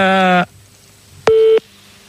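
Telephone ringing tone on a call placed to a radio phone-in show: two short steady tone bursts separated by a pause, the first buzzy and rich in overtones, the second a purer, clear tone.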